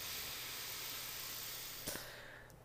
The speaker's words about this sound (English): Let's do two more breaths. So an inhale through our nose.